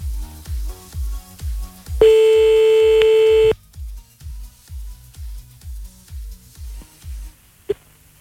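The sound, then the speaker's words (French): Telephone tones during a redial: a rapid, regular pulsing beat is cut by a steady, high-pitched tone lasting about a second and a half, then the pulsing resumes and ends with a brief click. “Hop, on rappelle.”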